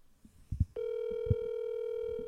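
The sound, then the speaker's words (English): A telephone call rings as a clear, steady electronic tone that starts abruptly after a few soft, muffled sounds and holds unbroken to the end. “Well, now I'm going to call Megan.”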